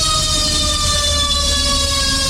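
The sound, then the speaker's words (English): A fire truck siren sounds in the city as a loud, sustained wail of steady layered tones that fills the whole stretch, with no voices. “Oh, it's a fire truck.”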